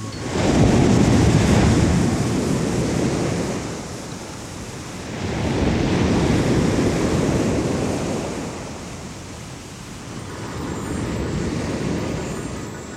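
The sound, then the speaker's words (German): Sea surf rushes in as loud, broad waves, swelling and fading in three long surges of roaring noise with no voices. “Geräusch von Meeresrauschen, dann stilles Surren auf einem endlosen Flur.”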